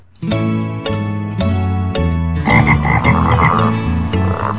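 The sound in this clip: Frogs croaking in their lagoons: a rhythmic series of low, buzzy, harmonic croaks, evenly spaced at first, then growing denser and louder halfway through, with no voices.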